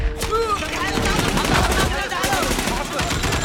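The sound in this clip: Rifle gunfire aimed at a target 900 metres away in a crosswind: sharp, loud cracks over a dense rumbling background, with voices talking over it.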